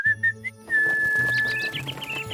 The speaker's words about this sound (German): Also, um das flatternde Federvieh hervorzulocken, muss man pfeifen.